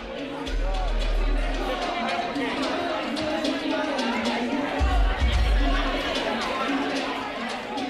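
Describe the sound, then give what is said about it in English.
Crowd chatter fills a rooftop party held by an Auckland radio station at Ridges Hotel: a dense, steady babble of many overlapping voices that holds loud from start to finish. “The spring weather hasn't quite come to the party, but this is the sound of summer on the way. The Auckland radio station Base FM is holding a party on the rooftop of Ridges Hotel”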